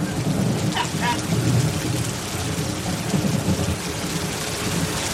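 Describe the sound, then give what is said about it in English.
Heavy rain coming down in a dense, continuous downpour, loud and steady throughout with a thick hiss of countless drops and no pauses. “It's really raining. It's really coming down.”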